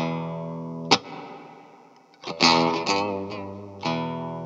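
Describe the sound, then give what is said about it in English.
An amplified Rickenbacker electric guitar played with a pick through slight overdrive: one ringing chord that slowly decays, then a few more picked chords and notes with a gritty, buzzy edge. “It's just kind of gross sounding, which I think some of the playing you were doing, especially with it amplified, it actually sounds kind of nice, a little overdriven.”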